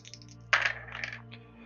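Dice rolled during a tabletop role-playing game. A sudden clatter is followed by short, rattling taps that fade within about a second, over a low steady hum.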